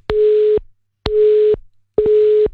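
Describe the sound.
Busy signal heard when calling someone back on a dropped video call: three steady, mid-pitched electronic beeps, each about half a second long, separated by short silences, with no talking.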